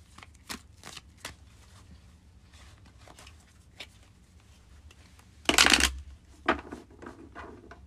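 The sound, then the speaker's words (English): Tarot cards being handled and shuffled: scattered soft taps and flicks, then a brief, dense riffling burst of cards, followed by a few more light card sounds. “Maybe we can notice a little bit of dissonance this week. I'm gonna pull one more card.”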